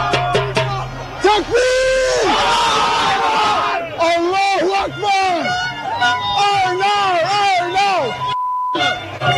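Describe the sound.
Crowd celebrating in the streets of Astoria, Queens, New York: loud chanting and shouting voices rise and fall in pulses, then stop in a short pause followed by a single brief electronic beep.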